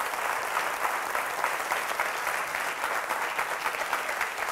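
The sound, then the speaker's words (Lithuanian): Audience applause welcomes a guest, a businessman from London: dense, steady clapping from many hands holds at an even level throughout, with no voices standing out. “Ir kviečiu plojimais pasitikti Egoną Jakimavičių, verslininką iš Londono.”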